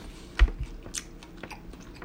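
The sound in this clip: Chewing on a carne asada torta, a hollowed-out French roll stuffed with steak, cheese, queso, vegetables and guacamole: one louder bite near the start, then irregular soft, moist crunches and smacks that continue at a low level.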